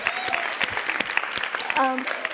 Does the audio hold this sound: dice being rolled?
no